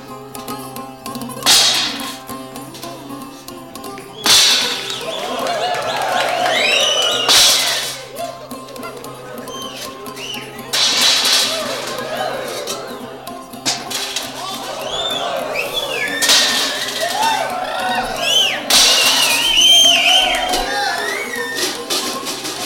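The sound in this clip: Metal garbage can lids clatter and crash during a comic dance, several loud bursts of banging at irregular intervals across the performance.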